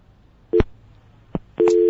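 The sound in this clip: A telephone busy tone after a dropped call: a few short, clean tone pulses separated by silence, the last one holding steady to the end.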